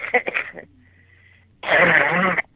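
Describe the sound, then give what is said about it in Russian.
A harsh, raspy cough from a person heard over a phone line bursts out as one long noisy fit after a brief stretch of talk and a quiet pause. “Ой, какой у тебя кашель-то. Жуть.”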